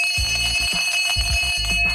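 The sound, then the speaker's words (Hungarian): A school bell rings to start the school year, giving a loud, steady electric ringing tone with a buzzing, pulsing edge that runs for the full two seconds. “Oké, és ha nincs újdonság, akkor nincs más hátra, mint becsengetni.”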